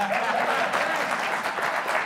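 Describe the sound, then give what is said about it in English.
Audience applause, a dense, steady patter of many hands clapping that holds at an even level for about two seconds, with no voices rising above it. “That's just where you clap.”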